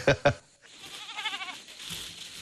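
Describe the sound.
Black goats at a breeding farm bleat: two short loud calls open, then a longer quavering bleat with a wavering pitch, followed by fainter calls.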